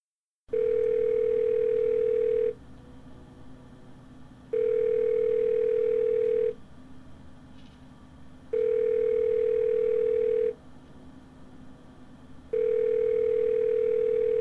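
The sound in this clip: Telephone line tone during a call: four long, steady single-pitched beeps of about two seconds each, separated by equal silent gaps, over a faint constant line hiss.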